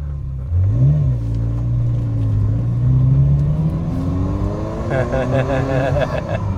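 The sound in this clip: A Ferrari Mondial T engine revving while driving, a deep harmonic drone that climbs in pitch, holds steady, then rises again, with talking over it.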